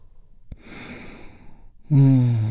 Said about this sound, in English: deep, healing breath with me right now. Here we go. And release.